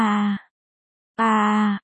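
A person moans and groans, with two drawn-out, loud vocal groans at a steady low pitch, separated by a short silence, the second cut off abruptly.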